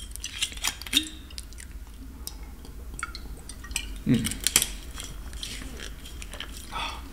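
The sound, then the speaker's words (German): A person takes a sip of a drink, heard as faint wet mouth clicks and a short gulping sound against a quiet background. “Oh, sorry, ich muss mal einen Schluck trinken.”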